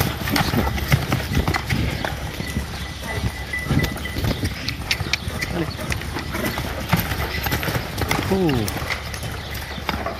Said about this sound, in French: Hop là, allez au galop. Encore un peu de galop accélération.